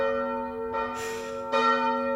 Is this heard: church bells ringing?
yes